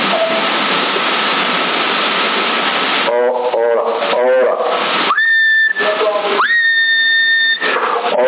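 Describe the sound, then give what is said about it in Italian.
Whistling into a CB radio microphone with the transmitter set to full power: two steady, high-pitched whistles with a short gap between them. They come after a stretch of loud radio hiss and a muffled voice. “quando fischio invece va a 40 watt”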